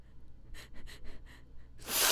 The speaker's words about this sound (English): Look, I'm going to snort beer salt. Hang on. Okay, ready? I'm scared.